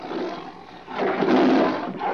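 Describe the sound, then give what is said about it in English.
Lions in a cage give deep, rumbling roars that rise and fall in a couple of long, loud swells. The growling tone stays throaty and sustained throughout. “Except in the lion's cage. Why haven't you searched there, Max? Are you kidding? There are lions in there.”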